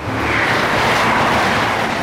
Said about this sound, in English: On a train. Brilliant.